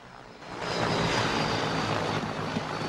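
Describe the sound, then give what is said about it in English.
A light aircraft coming in to land nearby. Its engine is a broad, steady roar that swells after a quieter start and then holds loud and even. “They run to meet a light aircraft which lands nearby.”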